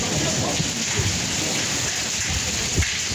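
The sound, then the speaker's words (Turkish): Hazelnut-sized hail pelting vehicles: a dense, steady drumming of many impacts with a few slightly louder thumps standing out, loud throughout and with no voices. “Fındık büyüklüğünde yağan dolu araçlara zarar verdi.”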